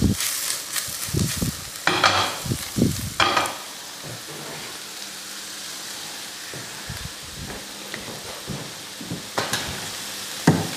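Bacon, mushrooms and onions sizzle and sweat together in a pan, giving a steady frying hiss. Louder stirring bursts and scrapes break through at intervals.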